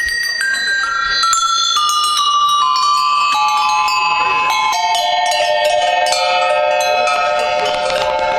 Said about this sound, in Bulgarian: Тежък занаят е. Това всичко се формира, отлива, нагажда се на звук.